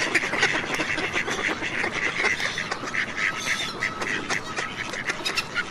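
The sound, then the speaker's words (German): Ducks quacking in a wooded countryside area, many rapid, nasal calls repeating over a constant, noisy background without pause. “Aber manche Tiere kannst du auch schon hören, obwohl du sie nicht sehen kannst. Zum Beispiel Frösche und Enten.”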